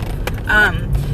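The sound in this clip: Low road rumble of a car driving back to Bend after an evening show, a steady hum under a brief voice.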